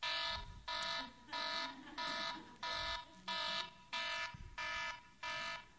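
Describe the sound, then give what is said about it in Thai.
An alarm clock rings in many regular bursts of loud electronic beeping. The bursts are evenly spaced, short and steady in a clear on-off rhythm, with no voices. “อันนี้เป็นนาฬิกาปลุกผมจริงๆนะครับและเสียงนี้จริงๆเพราะว่าผมต้องไปโรงพยาบาลถึงโรงพยาบาล 7:00 น.เพื่อไปผ่าตัดดังนั้นพอ 6:00 น.เนี่ยเสียงมันจะมาแล้วไม่ยอมหยุดอีกละ”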